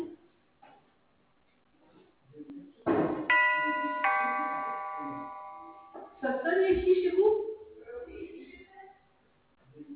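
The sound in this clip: A bell rings through a building, sounded as a test to reach rooms on other floors. One steady, bright electric ring holds for about three seconds. Several people talk and murmur before and after it.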